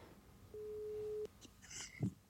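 A telephone ringing tone heard while placing a call: one steady, mid-pitched beep holding for under a second at an even level, then a short quiet gap with faint clicks.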